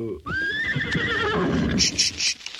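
A horse neighs in one long, loud whinny that starts high and gradually falls in pitch, trailing off into rougher, lower breathy sounds.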